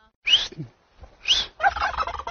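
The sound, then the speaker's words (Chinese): A large turkey, a bird said to reach eight kilograms, gobbles in two loud, rapid warbling bursts separated by a short pause. Lower, rougher noise follows the second gobble. “这是我们的火鸡，这个鸡还有特色，这个我给你听它的叫声啊。”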